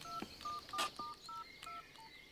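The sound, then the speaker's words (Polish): Touch-tone beeps as a telephone is dialled to call an embassy: a quick run of several short, faint, clean tones of differing pitch. “Niechże pani jeszcze raz zadzwoni do ambasady.”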